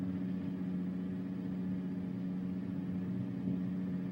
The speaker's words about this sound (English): The bus pulls over onto the shoulder, puts on the flashers.